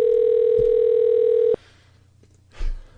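Ringback tone of a phone call placed to the caller's own number: one long, steady tone cuts off after about one and a half seconds, then near silence and a brief soft noise.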